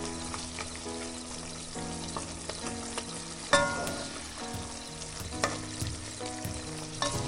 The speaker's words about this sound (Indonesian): Aku lagi masak nih, makanan favoritnya kamu loh.